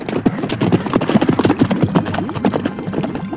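Hooves of two horses clip-clop as riders leave a frontier town heading south, a quick, steady run of many hoofbeats that keeps up throughout.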